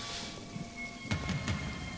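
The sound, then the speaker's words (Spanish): Rain falls as the opening of a song, a dense, even hiss with a few soft low thuds near the middle. “Está empezando a llover.”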